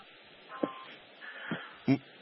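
Touch-tone telephone keypad beeps as a host dials a caller's number, a few short, faint tones spaced apart over a low steady hiss.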